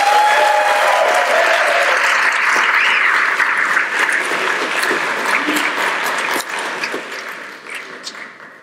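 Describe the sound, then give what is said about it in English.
Conference audience applause welcoming a pastor to the stage: sustained, dense clapping that holds for several seconds before thinning and fading. “So why don't you guys just give Pastor David Guzik a warm welcome.”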